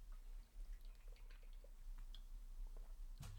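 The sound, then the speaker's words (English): A quick sip of a drink of water, faint and quiet, with small wet clicks and swallowing sounds and a sharper click near the end. “Let's take a quick drink of water here.”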